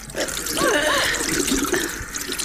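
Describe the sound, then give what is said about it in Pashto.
Water poured for washing the face splashes and trickles steadily, with a brief voice-like sound partway through. “دغسه اوس دمخ ته اوبه واچوا”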